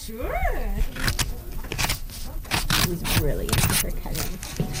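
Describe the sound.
A child cuts with scissors during library crafts, making a series of short, crisp snips at irregular intervals, with a voice heard at the start.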